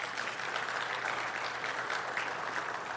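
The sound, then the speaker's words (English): Congregation applauding to welcome the visiting staff at a Sunday morning church service: a faint, steady patter of many hands clapping without pause. “Can we, welcome them, give them a hand or something.”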